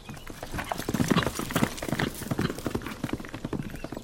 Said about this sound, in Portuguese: Sai do casebre. Monta no cavalo.